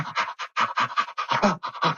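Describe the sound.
Animal play panting, short wide-mouthed breathing sounds: many quick, breathy huffs in a fast, fairly even run, moderately loud and with no other sound.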